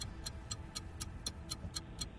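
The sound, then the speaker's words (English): Countdown clock ticking during a timed 60-second quiz round: faint, sharp ticks repeat evenly at about four per second, with no voices. “60 seconds on the clock and your time starts now.”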